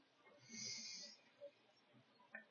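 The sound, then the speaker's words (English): A slow, deep inhale during a guided breathing exercise: a soft, airy hiss that swells for about half a second and then fades, faint and unaccompanied. “Two more times. Inhale, calm and quiet energy.”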